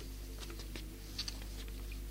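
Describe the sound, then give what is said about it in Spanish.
Heavy rain patters against a balcony as faint, scattered drops tap and splash over a steady low hum. “Y después de Cortázar, el aplastamiento de las gotas. Yo no sé, mirá, es terrible como llueve. Llueve todo el tiempo, afuera tupido y gris. Aquí, contra el balcón,”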